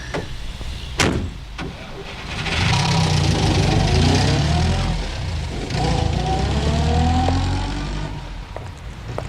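A car driving away: a single sharp knock, then a mid-pitched engine hum swells and holds for several seconds with gently sliding tones before easing off.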